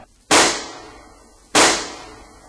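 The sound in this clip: Two sharp gunshots, each a loud, abrupt crack with a quickly fading tail, spaced a little over a second apart.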